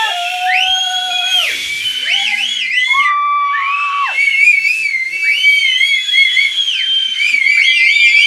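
Shrill whistling in a re-enacted football crowd, aimed at an opposing team's penalty taker: several loud overlapping whistles with rising and falling pitch, sustained throughout.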